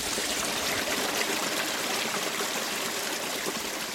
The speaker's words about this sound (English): it's only about 4 inches across, but it's coming in through a crack in the rocks, and it's really amplifying the sound, which is quite wonderful, actually.